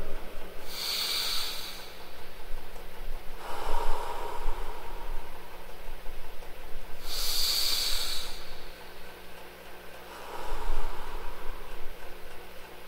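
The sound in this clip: Slow nasal breathing during a guided breathing exercise: four evenly spaced hissing breaths that alternate between higher, sharper airflow and lower, softer airflow, with no talking.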